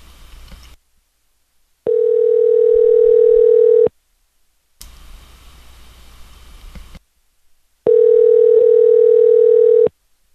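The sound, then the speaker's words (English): Ringback tone on an outgoing telephone call: two long, steady buzzing tones of about two seconds each, separated by a gap, with bursts of line hiss between them. “See if we get ringing on here. Wow, ringing.”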